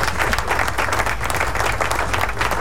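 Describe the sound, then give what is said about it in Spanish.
Applause from a crowd sounds on a rock music radio program. It is a dense, loud, continuous burst of clapping at a steady level, with no voices over it. “Aplauso a todos los que nos escuchan”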